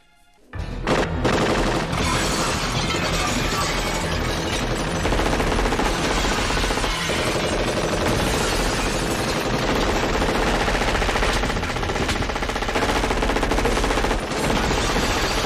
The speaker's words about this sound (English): Shoot the glass.